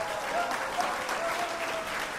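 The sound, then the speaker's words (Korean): Sustained applause from an audience at the award ceremony of a student debate contest on unification, dense and even throughout. “통일 공감 대토론회 시상식을 시작하겠습니다. 박수 주세요.”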